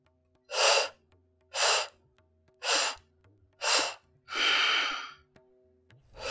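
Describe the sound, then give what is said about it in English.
Pulsed breathing in a breathing exercise: inhales through a rounded mouth and strong exhales through the nose at a steady beat of about one second, heard as five forceful breath bursts with the last one longer, without talk. “inhales through the rounded mouth and one strong exhale through the nose at a constant beat of 1 second each. So it's going to sound like this.”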